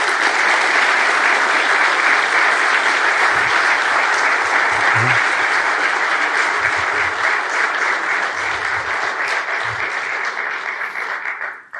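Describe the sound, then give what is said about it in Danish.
Long, sustained applause from a crowd of over 200 men at a gathering, a thick, even roar of clapping that holds steady, eases slightly near the end, then cuts off abruptly. “Og kan vi ikke lige give ham en klap, en klapsalve nogle gange?”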